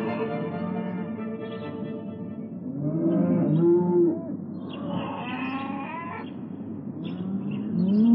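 Cows moo on a farm as they are led out. Several low, drawn-out moos with gliding pitch overlap one another at a fairly steady level, with no talk.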